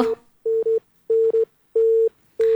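Beeping tone of a phone line cut off at the end of a radio call-in, a series of steady mid-pitched beeps broken by uneven gaps, with no voices.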